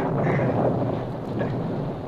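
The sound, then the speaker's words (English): A thunderstorm sound effect in a radio drama: a dense, steady roar of rumbling and rain-like hiss that holds at a fairly even level throughout, with no voices. “The storm raged on through the night.”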